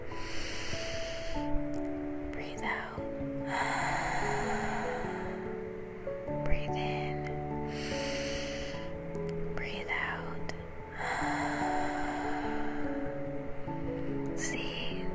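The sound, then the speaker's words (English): Slow, deep breaths in and out, guided as a relaxation exercise. Several long, airy breath sounds rise and fall at an unhurried pace over soft, steady background music. “Take some deep breaths. Go in and out. Breathe in.”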